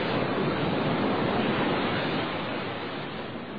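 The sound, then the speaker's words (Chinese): Sea water rushes over a ship's deck in heavy seas as a dense, continuous roar of surf and wind. It holds steady without separate crashes and eases slightly toward the end. “海水越过背风一面的板墙灌进船的甲板上”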